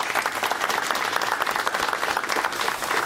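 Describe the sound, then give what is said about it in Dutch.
Studio audience applause for a guest on a TV sports talk show, a dense, steady wash of many hands clapping that holds at an even, fairly loud level for about three seconds without a break. “Even maar een applaus, Siebe Hazen.”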